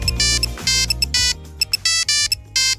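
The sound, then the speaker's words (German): A mobile phone ringtone plays a rhythmic electronic pattern of bright, sustained tone bursts with short beeps between them. The repeating sequence is loud and clear throughout, with no voices. “Dann haben wir wissen, wie angesagt bei Ihnen Klingeltöne auf dem Handy noch sind.”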